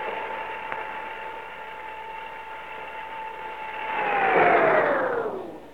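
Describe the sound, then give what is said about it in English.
An elevator stopping and getting stuck as its power cuts off: a steady electrical hum with a clear tone runs, swells louder, then the tone sags downward in pitch and fades as the car winds to a halt. “Then why are we stopping? Elevator's stuck. Power's cut off.”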